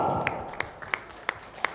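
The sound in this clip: Hand clapping at a lively evening gathering: five sharp, evenly spaced claps in a steady rhythm, fairly faint, with no other sound between them.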